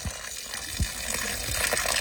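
Water gushes and splashes as a man waters his small garden, a daily task beside an improvised tent near the border in the Gaza Strip. A steady, broad hiss runs throughout, with a few low thuds.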